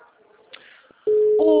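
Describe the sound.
Telephone tones during a call to a client: after a faint low murmur, a loud, steady electronic tone starts abruptly and is joined by a second, higher tone near the end.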